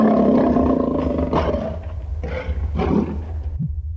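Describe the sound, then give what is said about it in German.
A lion roars in a series of deep, rough, rumbling bursts that weaken toward the end, heard alone without talk. “Das ist ein Löwe. Ein Löwe.”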